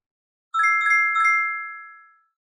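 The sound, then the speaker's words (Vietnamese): A mobile phone ringtone plays alone: three quick, bright chime notes, the last ringing on and slowly fading away. “Đột nhiên tiếng chuông điện thoại di động vang lên.”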